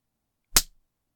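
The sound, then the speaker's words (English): A single hard spank slapped onto bare buttocks: one sharp, loud crack that snaps in and decays within a fraction of a second, standing alone in otherwise silent surroundings. “Smack, hard and quick onto your ass. Spanking once hard enough to make your body move”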